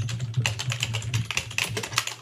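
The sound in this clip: Typing on a computer keyboard for a Google image search: a quick, irregular clatter of many key presses, with no voices.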